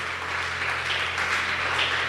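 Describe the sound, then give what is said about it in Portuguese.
A church audience applauds during a service to honour people who made a decision of faith that day: dense, steady clapping throughout with no clear breaks. “Você pode aplaudir aí para essas pessoas, aplaudir a Deus por essas pessoas que tomaram essa decisão hoje?”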